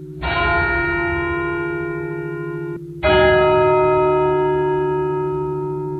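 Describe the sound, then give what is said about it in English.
Funeral bells of an evangelical Lutheran church in Helsinki strike twice, each a loud, deep tone with rich overtones that hums on in a long, slowly fading resonance. “that's the sound of an evangelical Lutheran church in Helsinki, Finland. Every day at 5 p.m. local time, the church has been ringing its funeral bells.”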